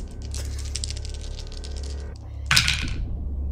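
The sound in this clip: Percentile dice and a second die clatter briefly in one sharp burst of rattling near the end, after a stretch of steady low hum and faint background noise.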